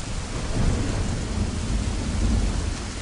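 Heavy rain pours down in a storm, a dense, loud, unbroken hiss with a deep rumble underneath that holds steady throughout.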